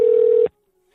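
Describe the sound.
A telephone number is dialed: one loud, steady, mid-pitched phone tone sounds for about half a second, then cuts off abruptly into silence.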